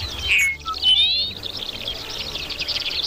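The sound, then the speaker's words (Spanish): Song of a Dupont's lark, a scarce species: a short high chirp and a thin, rising whistle, followed by a sustained, high, buzzy trill that runs steadily to the end. “La alondra ricotí. La traigo porque es una especie de que es relativamente no común, porque es bastante escasa”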